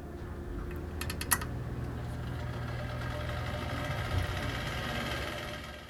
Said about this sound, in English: And one of the fun things from that place, the heating unit, we called it Old Rattler. Old Rattler, yeah. And what you hear at the beginning, Would You Go Back, where you hear the click and the turning on.